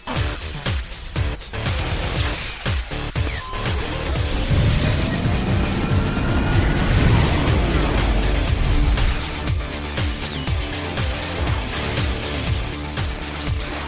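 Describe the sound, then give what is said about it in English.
Dense crashing and booming effects from smashing the game board in a video game battle against Galactus, a loud, continuous barrage of impacts and rumbling clatter with no let-up. “I've only got 3 hours left to kill Galactus again. Hold on, I'm just up to 30 green. I have to smash the board a few times.”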